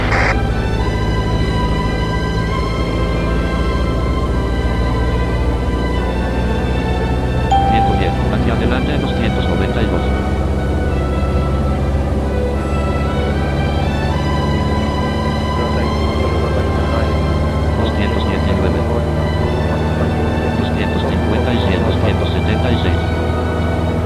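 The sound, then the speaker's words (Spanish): A Boeing 737 airplane climbing after takeoff produces a loud, steady engine roar with a sustained tonal whine on top, continuous and unbroken throughout. “Despegue exitoso. sk 737, elévese a 500 y continúe hacia su destino.”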